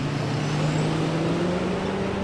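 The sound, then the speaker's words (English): Steady road traffic roars from two of the busiest roads in Bloomington-Normal beside a mall property, a continuous loud rumble of cars and trucks with a low engine hum and no pauses. “The mall property is right next to two of the busiest roads in Bloomington Normal, and that means endless traffic could interfere with the peaceful park setting.”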